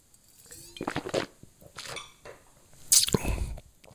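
Someone tastes a white wine with herbal and lime notes from a glass, with a series of soft, wet slurping sips and a louder burst of sucking near the end.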